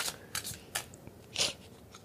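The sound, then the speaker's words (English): Tarot cards being shuffled, giving a few faint, crisp rustling snaps in short separate bursts with quiet gaps between them. “So, shuffling some tarot cards because, bitch, some things don't change.”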